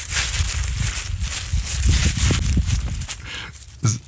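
Crunching, rustling footsteps through dry summer vegetation outdoors, a steady, dense texture of scuffs and soft low thumps with no clear individual steps, ending in one sharper thump near the close.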